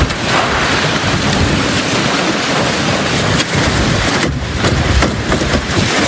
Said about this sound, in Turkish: Fırtına önüne neyi kalktıysa aldı götürdü. İnsanlar yollarda yürümekte zorlandı.